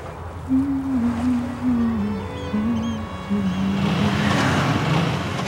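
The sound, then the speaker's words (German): Motorcycle arriving at a ferry quay by the water: a droning engine note with a wavering low pitch, joined by broader rushing noise toward the end. “Das Motorrad lässt sie aufschrecken.”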